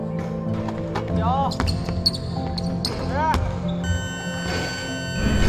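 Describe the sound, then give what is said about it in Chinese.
Basketballs bounce on a court as a team, split into four groups, runs high-intensity shooting practice, with repeated thumps and two sharp rising sneaker squeaks over a steady backdrop. “为提升队员实战条件下的投篮命中率，每天训练最后阶段，队员们被分成四组，他们要在规定时间内完成高强度的投篮练习。”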